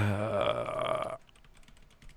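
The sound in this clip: Computer keyboard typing follows a short, voiced, burp-like tone, the keys giving a quick run of faint, light clicks.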